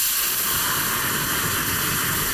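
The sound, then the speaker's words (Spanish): Hot stock poured into a pan or pot of rice sets off a loud, steady hiss and sizzle that holds at an even level throughout, with no voices. “Cuando echéis el caldo a la sartén o a la olla, tiene que sonar así...”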